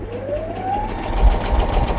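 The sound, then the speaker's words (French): A sewing machine stitches a small fabric pouch. Its motor whine rises in pitch as it speeds up, then settles into a steady, loud mechanical whirring hum. “on va pouvoir faire le petit pochon pour le ranger sur la machine à coudre. Ça va, vous le sentez ? Allez, j'essaie.”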